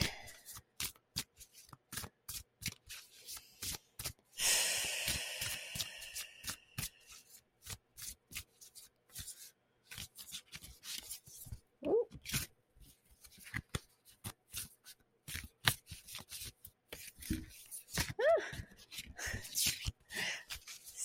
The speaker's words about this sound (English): So, gonna get a card here.